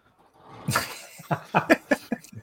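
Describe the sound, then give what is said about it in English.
Short whines or yelps from a two-year-old Welsh collie, arriving as several quick, high, tonal bursts that grow louder toward the end. “For the benefit of the listening audience, that's not us. That's the dog. That's the delightful dog here. This is Walter. This is my 2-year-old Welsh collie.”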